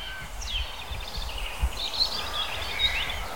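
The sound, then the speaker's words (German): A blackbird singing: faint, fluting whistled phrases that rise and fall, over a soft low rustle and rumble. “Sanft in Dur unterlegt von der Amsel.”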